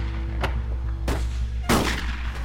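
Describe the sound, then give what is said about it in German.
Rifle gunshots in a radio drama, two people firing: three sharp reports about half a second apart, the last the loudest, over a steady low rumble. “Doch die Schüsse hörten nicht auf. Die beiden verschossen so viel Munition wie eine ganze Kompanie.”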